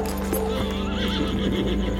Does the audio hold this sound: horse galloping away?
yes

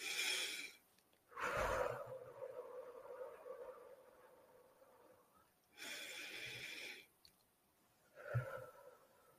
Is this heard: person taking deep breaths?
yes

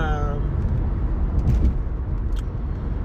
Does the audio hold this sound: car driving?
yes

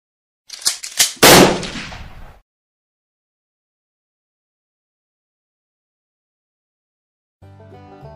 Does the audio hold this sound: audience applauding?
no

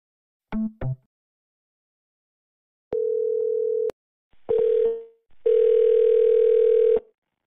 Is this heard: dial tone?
yes

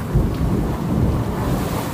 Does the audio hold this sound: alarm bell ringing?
no

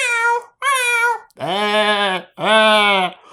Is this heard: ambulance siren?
no

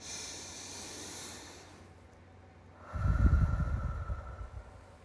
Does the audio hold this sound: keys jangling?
no

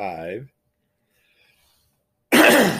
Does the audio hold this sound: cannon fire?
no

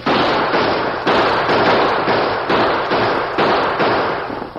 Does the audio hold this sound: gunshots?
yes

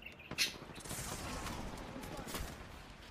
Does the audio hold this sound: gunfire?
yes

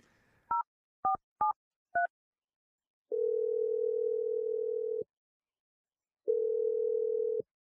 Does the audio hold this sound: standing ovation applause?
no

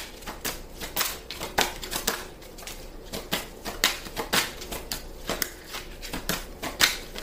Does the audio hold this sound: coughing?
no

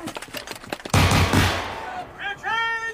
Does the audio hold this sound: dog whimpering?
no

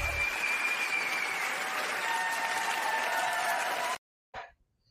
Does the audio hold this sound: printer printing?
no

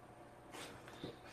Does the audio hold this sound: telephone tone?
no

